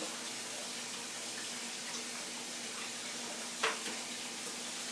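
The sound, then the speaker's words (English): Running tap water rinsing a spatula makes a steady, loud hiss of flowing water throughout, broken once by a brief clink partway through. “So I'm gonna rinse the spatula off.”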